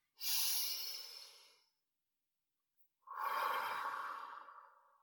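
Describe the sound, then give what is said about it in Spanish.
Deep breathing in and out: two long, airy, breathy breaths separated by a short silence, each fading gradually, soft and heard alone. “Lo reconocemos. Volvemos a respirar.”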